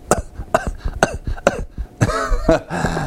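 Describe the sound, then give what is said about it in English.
A voice imitates a hacking cough: four short, harsh coughs at an even rhythm, followed by a longer, rasping throat-clearing hack. “You ever hear someone that had a hacking cough, just”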